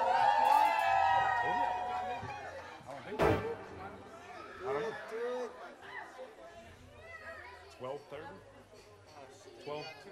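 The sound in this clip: A live show audience cheers and shouts, loud at the start, then gives way to overlapping chatter and a few whoops. Voices talk throughout.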